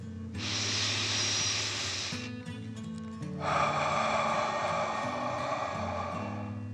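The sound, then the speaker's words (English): A deep breath in and then a long breath out during a children's bedtime relaxation exercise. The airy inhale is followed after a short pause by a fuller, steady exhale, with soft music underneath. “Last one, fill your chest and belly, deep breath in and out.”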